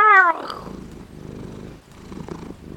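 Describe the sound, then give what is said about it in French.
A cat purring: a brief high, falling cry opens, then a low, rumbling, continuous purr with a gentle pulsing texture. “l'escalade de toutes ses griffes jusqu'à se glisser dans son cou en ronronnant”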